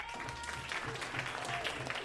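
Brief, soft applause from an audience voting by show of hands' noise for a contestant in a game, a short even patter of clapping with no clear peak.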